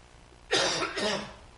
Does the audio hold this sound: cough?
yes